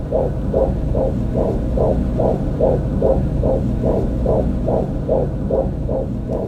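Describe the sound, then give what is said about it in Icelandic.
A fetal heartbeat recorded during an ultrasound scan: a fast, steady whooshing throb repeats about twice per second over a loud, constant low hum, with no voices. “Þau stálust til að taka upp hjartsláttinn í barninu í síðasta sónar. Takturinn er sterkur og fallegur.”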